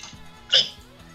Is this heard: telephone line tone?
no

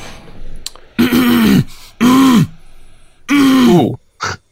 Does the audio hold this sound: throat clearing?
yes

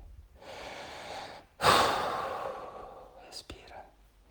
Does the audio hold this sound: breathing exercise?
yes

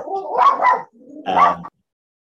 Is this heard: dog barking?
yes

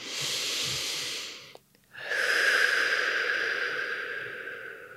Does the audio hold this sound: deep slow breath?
yes

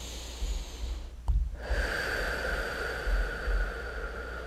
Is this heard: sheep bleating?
no

